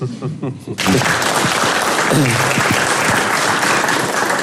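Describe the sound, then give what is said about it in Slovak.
An audience bursts into applause after a brief moment of speech and keeps clapping loudly and steadily, with a voice briefly heard over the clapping. “Nemusíte tlieskať, my sme v práci. Ale ďakujem.”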